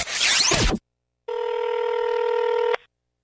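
A single long, steady electronic telephone ring before a voicemail greeting. It holds for about a second and a half, then cuts off abruptly, and follows a brief noisy burst and a short silence.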